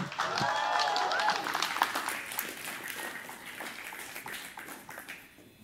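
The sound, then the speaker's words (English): Applause from a church audience welcoming a student up to the pulpit: a dense stream of clapping that is strongest early and gradually thins out, with a voice briefly heard near the start. “So please give it up.”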